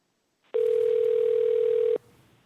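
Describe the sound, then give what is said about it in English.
A steady telephone dial tone on a call line during a Public Service Commission hearing: one unbroken mid-pitched hum lasting about a second and a half, then cutting off to faint line hiss. “as we dial the number”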